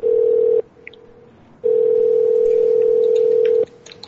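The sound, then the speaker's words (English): A telephone ringing out on the line: a steady, mid-pitched electronic ring tone sounds briefly, falls silent for about a second, then returns for about two seconds before cutting off. “Answer your phone.”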